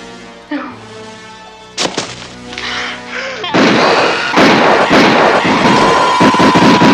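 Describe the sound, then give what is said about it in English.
Gunfire in a 1974 horror film scene: a couple of sharp, isolated shots, then a loud, sustained barrage of rapid overlapping bursts, with voices mixed in. “Stop firing!”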